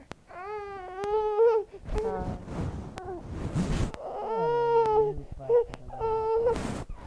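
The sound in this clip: An infant fusses and cries in loud, wavering wails broken by short whimpers and brief pauses, the cries rising and falling in repeated bursts.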